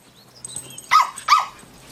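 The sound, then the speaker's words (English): A dog being let into a bathroom barks twice in quick succession, two sharp mid-pitched barks standing out against a quiet background with a few faint softer noises before them. “strides into the bathroom, shutting the door behind her, then letting her dog in.”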